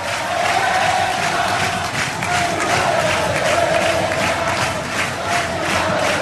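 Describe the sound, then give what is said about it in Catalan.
A football stadium crowd cheers and chants in one loud, steady roar that keeps up without a break for about six seconds. “Així és com anima el públic”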